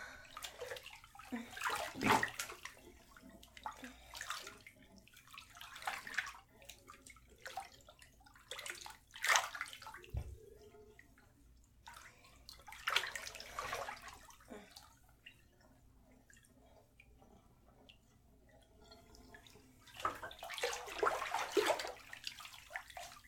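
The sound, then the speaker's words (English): Water splashing in a bathtub as someone rinses off, coming in uneven bursts of splashes and trickles that swell loudest near the start, middle and end, with quieter dripping between. “I don't want you to come in the tub, okay? Let's just finish getting clean. Here, let me get my back. Let me rinse off my back, okay? Rinse off my back.”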